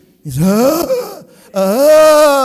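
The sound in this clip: A voice imitates a groan with two drawn-out, low moaning sounds. The first swells and falls away, and the second, after a short pause, is longer and steadier.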